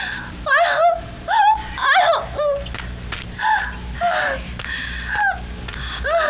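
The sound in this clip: A woman moans and cries out in the pain of childbirth with her first baby. Many strained, wavering vocal cries come in repeated bursts, with gasping breaths between them.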